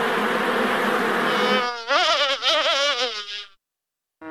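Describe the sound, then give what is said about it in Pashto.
Honey bees buzz steadily at a bee farm in Helmand, a dense, wavering drone that cuts off abruptly after about three and a half seconds, with a brief burst returning at the very end. “د هلمند د کرهنې ریاست وایي دوی د لشکرګاه تر څنګ په ناوې او نهرسراج ولسوالیو کې د شاتو د مچیو لوی لوی فارمونه لري او عملا خلکو ته روزنه ورکوي.”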